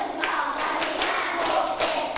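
A few hand claps in a slow, even rhythm, each a sharp slap followed by a brief pause. No voices are heard.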